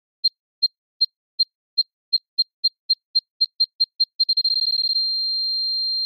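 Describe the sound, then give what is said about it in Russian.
Electronic alarm beeping: short, high, shrill beeps start evenly spaced, then come faster and faster until they merge into one sustained tone that holds to the end. “Индикатор энергии покраснел, просев в ноль, и вибрация сменилась на пиканье. Ускоряющаяся и тревожная.”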